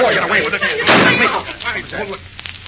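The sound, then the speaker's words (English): A gunshot fired at the ceiling gives one sharp, loud blast in the middle, with people talking before and after it. “Now, the next time I use this gun, I'm not going to aim at the ceiling.”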